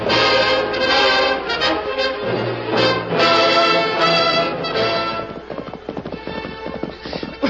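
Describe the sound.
Horses gallop in a western chase with outlaws, their hoofbeats drumming in a rapid, steady rhythm for several seconds. The sound is loud and dense, and the beats grow looser and more scattered near the end.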